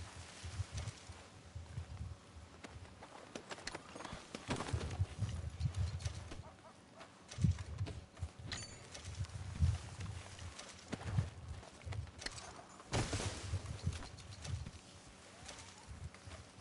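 Horse hooves clip-clop in a video game as the rider travels on a purchased mount, a fairly faint, uneven run of low thuds with steady background noise throughout.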